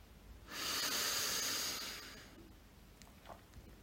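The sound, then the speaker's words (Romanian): A slow, deep inhale during a relaxation breathing exercise, a soft, breathy hiss that swells and then fades over about two seconds, alone and quiet. “Inspir și mă relaxez.”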